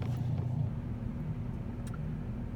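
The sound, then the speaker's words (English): Car driving, a steady low rumble and road hum that stays even throughout, with a faint hiss above it and no talk. “It's Sunday, and I'm driving as I'm recording this.”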